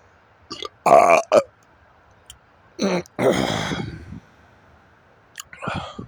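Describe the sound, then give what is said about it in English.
Hiccups from a man who has suddenly come down with them: a few abrupt, throaty voiced bursts, irregularly spaced, with quiet gaps between. “Shit, now I got the hiccups. All of a sudden.”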